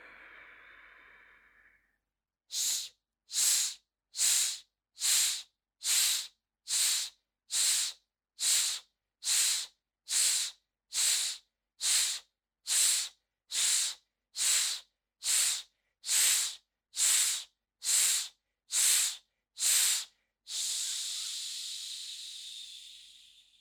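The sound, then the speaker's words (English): Forceful breaths from a deep breathing exercise during a self-care meditation. An initial inhale is followed by many sharp, evenly spaced hissing breaths in a steady rhythm, then a long drawn-out exhale at the end. “And this is slow and we'll end up speeding up. And we want to do 60 of these, but we'll see how far along we get. Okay. Start with a deep breath in.”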